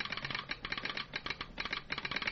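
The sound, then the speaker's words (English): Rapid clicking of a telegraph instrument in a small railroad shack, a quick, steady rattle of many clicks, faint throughout. “The engine was some distance away from the small shack that housed the telegraph. Calkin sat before the clicking instrument with the Lone Ranger standing at his side.”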